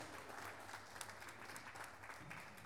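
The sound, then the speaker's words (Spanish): Applause from the audience at a pluricultural gathering of living languages in Salta, a faint, steady, dense clapping that continues without a break. “Ahí están fuertes los aplausos.”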